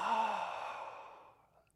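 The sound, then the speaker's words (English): A single big, deep breath of air, a loud, airy rush that starts strong and slowly fades over about a second and a half, heard alone with no talk. “Let's take a big, deep breath of air.”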